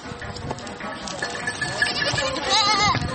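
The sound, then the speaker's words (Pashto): A flock of sheep grazing on a mountainside bleats, wavering calls overlapping in a continuous, fairly loud, noisy mix. “د پسو رمه ده او دا څری په دې د غره په لمن کې”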